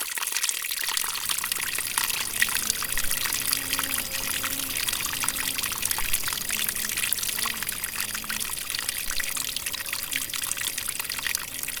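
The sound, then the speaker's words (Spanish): Water runs along its course toward a river in the Chaco landscape, a steady broad rushing and trickling flow that stays constant throughout. “Mire cómo el agua corre sobre su camino, puedo decir, ¿no? El agua.”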